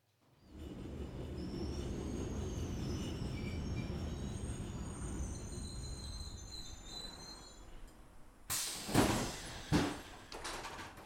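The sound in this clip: A train arriving at a station: a steady rumble with thin, high wheel squeals runs for several seconds, then gives way to a few sharp, louder knocks near the end.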